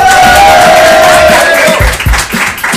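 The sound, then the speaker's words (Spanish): Studio audience cheering loudly, a dense roar of crowd noise with a drawn-out shout early on and scattered whoops and claps. “A ver, ese público que hace un ruido tal que así.”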